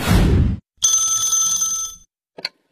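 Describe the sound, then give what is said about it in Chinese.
A telephone rings for an incoming call: a brief noisy burst, then one sustained bright, buzzing ring, ending with a short faint chirp. “这天呢，小何跟佳佳正看电视呢，小何的表弟打来了电话。”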